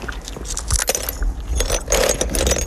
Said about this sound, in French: Je casse mes assiettes, je. Voilà. J'ai une pince comme ça, je le coupe avec la pince.